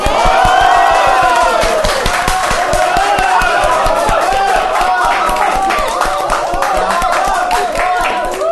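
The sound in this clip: A live studio audience at a Cantonese talk show cheers loudly, with whoops, shouts and scattered clapping blending into a sustained roar that holds steady and tapers slightly toward the end.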